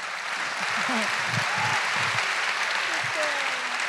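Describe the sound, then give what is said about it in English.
A large audience bursts into full applause at a live talk event at the Royal Festival Hall, with dense, loud, sustained clapping and a few cheering voices rising above it. “full applause break”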